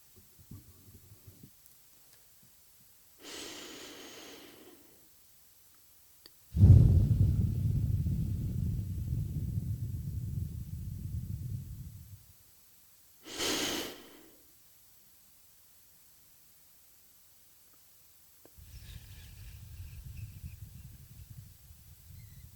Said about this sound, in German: Einatmen und ausatmen.